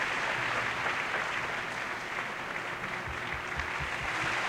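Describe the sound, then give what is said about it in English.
Opera house audience applauding a singer at a curtain call after a Don Carlo performance, a steady, dense clapping that stays strong and even throughout. “Acknowledging the applause and holding a wonderful bouquet of flowers, waving to the audience.”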